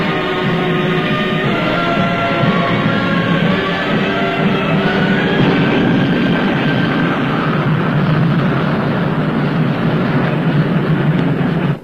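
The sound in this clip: Radio-drama sound effect of a passenger train running toward a bridge: a loud, continuous rumbling and rattling with faint steady whining tones on top, heard without voices.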